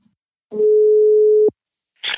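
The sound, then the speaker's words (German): A single steady telephone ringing tone sounds as a call connects to someone driving on the motorway. The even, mid-pitched tone lasts about a second and is followed by a short burst of noise. “Mein Anruf erreichte den rasenden Lothar auf der Autobahn.”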